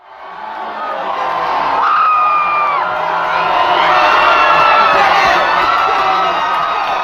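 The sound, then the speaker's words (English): Excited hockey fans in a bar cheer as the University of Denver men's team wins its 10th NCAA championship, beating Boston College 2-0; loud, continuous roaring with screams and whoops. “That's the sound of excited hockey fans as the University of Denver's men's hockey team won their 10th NCAA championship Saturday.”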